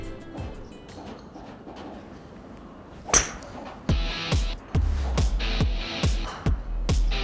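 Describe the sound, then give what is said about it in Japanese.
A fairway wood strikes a golf ball on spring turf with one sharp, crisp crack, followed by a run of duller, lower thumps. “どっちかっていうと少し打ち込んでいくような雰囲気を出して構えてくださいで目線だけ少しボールを右から見るような感じでこれで打ちます”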